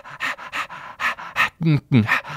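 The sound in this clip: A person imitates a dog panting with quick, rhythmic huffing breaths in a steady series of short bursts, some sharper and more voiced toward the end.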